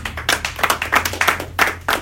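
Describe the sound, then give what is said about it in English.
Audience clapping at a live comedy show: an uneven, fairly loud patter of a modest number of hands, arriving in irregular bursts over a low, steady hum. “Everybody clap it up for them.”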